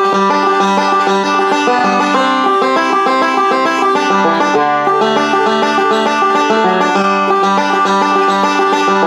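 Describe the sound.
A banjo plays a steady backup rhythm pattern, repeating the same roll with a chord reversal, with bright plucked notes that continue evenly throughout and no voices.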